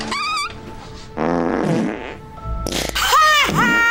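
A wet, sputtering fart from someone with diarrhea: three drawn-out, loud bursts. The first is short and buzzy, and the later ones are longer and rougher, with squeaky tones that bend up and down.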